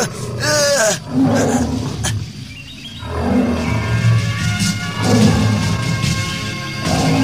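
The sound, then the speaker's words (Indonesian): A tiger roars with a loud, rough, drawn-out growl lasting several seconds over a dense, continuous low background. “Oh, harimau. Matanya ganas memandangku.”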